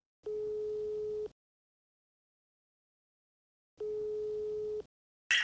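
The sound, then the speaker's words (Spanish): A telephone ringback tone sounds while a call is placed: two steady, level tones of about a second each, separated by a long silence, followed by a brief burst of noise at the very end. “Bueno, pues llamo a Ray.”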